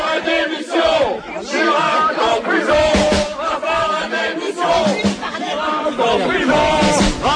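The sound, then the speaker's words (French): Protesters shout and chant during President Chirac's visit to Valenciennes, France, in October 2003: a loud, unbroken roar of many voices yelling together, with no pause through the whole stretch. “Alors ça, c'est un petit comité d'accueil à Valenciennes, le 21 octobre dernier, 21 octobre 2003. Le chef de l'État rend visite aux habitants,”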